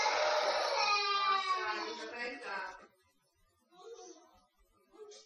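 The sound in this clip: A young girl crying at bedtime, a sustained high, wavering wail for a few seconds that breaks off into quieter, short whimpering sobs.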